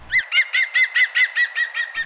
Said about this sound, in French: Un deuxième oiseau, bonjour, comment allez-vous? Je suis Madame Oiseau, je suis un pic vert